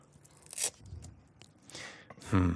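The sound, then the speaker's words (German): A Velcro hook-and-loop strip is pulled apart during a cardboard virtual-reality headset craft, making a few short, rasping tearing bursts. They are fairly faint, and the last one is the loudest. “Kannst du mal auch so einen Reißverschluss, also einen Klettverschluss auseinander machen?”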